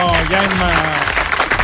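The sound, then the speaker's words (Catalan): Brief applause from an audience, a dense clapping texture under a speaking voice that is prominent at first. “Doncs un aplaudiment perquè ha estat a tot això”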